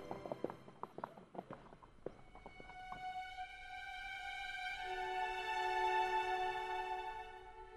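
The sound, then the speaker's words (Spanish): Horse hooves clip-clop in an irregular run of sharp knocks for a few seconds, then give way to a sustained, swelling harmonic musical tone that carries on alone. “Por suerte, encontré este caballo y pude regresar con él.”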